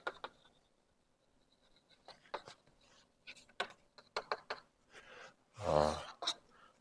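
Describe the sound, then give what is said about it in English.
Faint pen strokes scratch and tap as a matrix is written by hand, in quick, irregular bursts with short pauses between them. A louder rustling scrape comes near the end. “Okay, and now let me write down the exchange matrix.”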